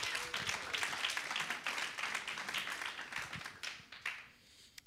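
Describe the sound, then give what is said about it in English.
Audience applause welcoming a speaker at a college event: dense, steady clapping that holds for several seconds, then thins and fades toward the end. “So without further ado, let's give a hand and welcome Dr. Christopher Graham.”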